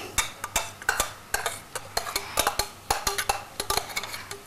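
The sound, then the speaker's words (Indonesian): A cooking pot clatters as it is handled while vegetables cook, with many sharp metallic clinks and taps in an irregular rhythm, each ringing briefly. “Ini panci lagi itu. Hmm? Panci. Iya, emang panci.”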